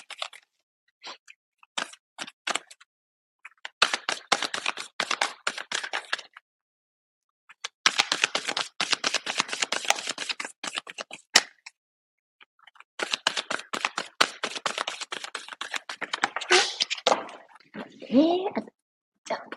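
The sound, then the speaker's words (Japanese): Tarot advice cards being drawn and handled: many rapid, crisp clicks and flicks in dense bursts, separated by short silent pauses. “アドバイスカード引いていきますね。”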